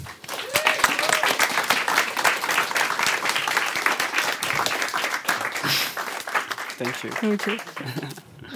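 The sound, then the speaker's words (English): An audience applauds to welcome two speakers onto the stage at a literary event on science fiction. The clapping is dense and sustained throughout, and a voice speaks over it near the end. “Please give them both a warm welcome.”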